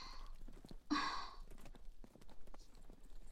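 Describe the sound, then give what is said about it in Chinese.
Hooves of a horse pulling a carriage clop faintly as it comes to a stop, with a single breathy burst partway through. “哎，马车停了，这路程可真够快的。”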